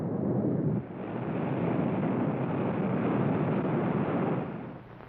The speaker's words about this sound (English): Can he survive that blast off? You're better than any old safety belt,